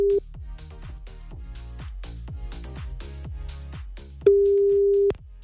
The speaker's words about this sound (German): Also pass auf, wir wählen jetzt mal irgendeine Nummer.